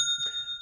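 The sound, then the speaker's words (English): Sale notification chime from an online store: a bright, bell-like ding of two quick strikes whose ringing overtones sustain briefly and fade within a second, sounding alone. “You know that that's the sound of another sale on your online Shopify store.”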